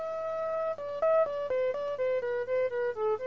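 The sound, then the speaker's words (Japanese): Synthesizer tone while its VCF filter is adjusted, heard alone as a steady stream of many short stepped notes that jump between pitches, each with a bright, buzzy harmonic edge and roughly even loudness. “これね VCF という、まあ、 フィルターを調節しているところですね、”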